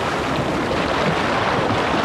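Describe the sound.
Sea waves wash in a steady, unbroken rush of surf, with wind noise mixed in and no distinct breaks or crashes standing out.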